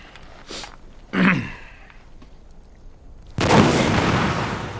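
A recoil-heavy weapon is fired. A short burst comes first, then one sharp, loud blast that rings on in a long, broad rumbling decay.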